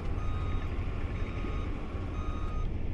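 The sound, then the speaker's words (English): Heavy end loaders push dirt and gravel at an airport runway construction site, a steady, dense engine drone with a thin reversing-beep tone running above it. “The end loaders are out busy pushing dirt and gravel around.”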